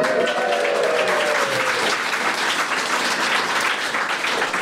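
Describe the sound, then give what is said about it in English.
Dense, steady audience applause welcomes comedians onto a comedy panel show. The clapping stays full and even for its whole length, with no talk over it. “let's welcome those who know best how to laugh through the pain of certain destruction. Comedians!”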